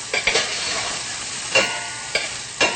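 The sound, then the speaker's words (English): Garlic frying in a pan gives a steady, dense sizzle, broken by several brief scraping stirs. “Make sure not to burn the garlic. Once again, that's the most important thing, is never burning your garlic.”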